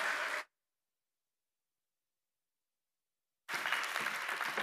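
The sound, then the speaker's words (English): A church audience applauding to welcome a guest preacher at a Baptist church: a brief burst of clapping cut off by a few seconds of silence, then steady, dense applause resumes. “Let's give him a warm Pacific Baptist welcome.”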